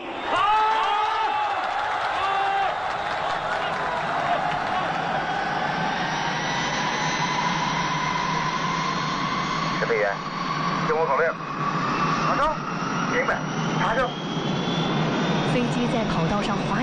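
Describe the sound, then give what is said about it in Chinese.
Jet aircraft engine roaring as the plane accelerates down the runway and takes off on its first flight, a loud, broad, steady roar with a high whine that slowly climbs in pitch throughout. “加速，离地，起飞了，上天了， 飞起来了，飞起来了”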